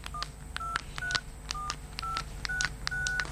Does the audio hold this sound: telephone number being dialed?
yes